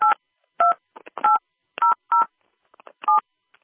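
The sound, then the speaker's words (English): Telephone keypad tones entering a PIN on a conference call line: several short dual-pitched beeps at uneven intervals, with faint clicks between them. “Please enter your PIN followed by pound.”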